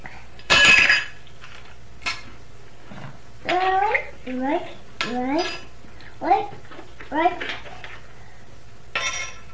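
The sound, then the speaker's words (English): Spoons and dishes clink in a few sharp metallic knocks and scrapes, the loudest near the start, while a small child and an adult talk over them. “Get spoon. Spoon? You want these spoons? I want it.”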